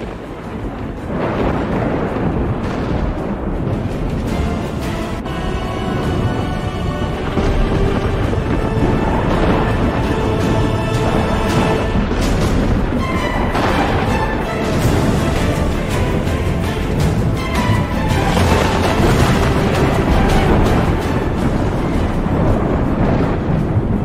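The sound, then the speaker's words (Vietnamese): Thunder rumbling over the sea during a storm: a dense, continuous, loud roar with wind-like noise and stretches of sustained tonal droning, never dropping away. “Sấm chớp trên trời đùng đùng dẫn thẳng xuống mặt biển, tạo ra một kỳ cảnh kinh hoàng.”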